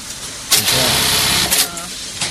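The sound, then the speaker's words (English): A bar-tacking sewing machine stitches a string onto a corner of fabric meant to be tied into rain ponchos. Its loud, steady motorized whirring is punctuated by a couple of sharper bursts. “This is my machine, sewing on a string to a corner.”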